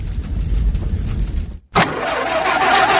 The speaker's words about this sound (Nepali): कतिन्जेलसम्म यस्तो बिग्रिएको गाडी चलाउनु, अब त अर्को गाडी लिनुहोस् बुढा।